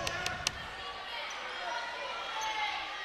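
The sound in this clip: Basketball dribbled on a court during a women's game, with three sharp bounces early on, then steady background noise and talk.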